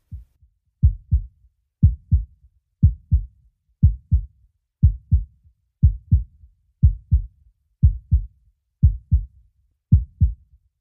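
A steady human heartbeat of low, thumping lub-dub pairs, about one pair per second, in an even rhythm. The beats are heard alone against silence.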